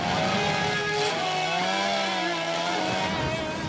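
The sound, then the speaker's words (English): A chainsaw cuts through a copy of the tax code, its engine droning loudly and continuously with a pitch that wavers up and down as the saw works. “He put out a web video last week where you see him taking a chainsaw to the tax code,”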